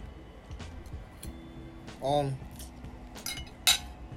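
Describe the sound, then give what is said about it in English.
Cutlery clinking on a plate while someone eats spaghetti with a window open: scattered light clinks and scrapes over soft background noise, with a short voiced sound in the middle. “Forgive me for the noise. The window's open. And also, I'm eating spaghetti.”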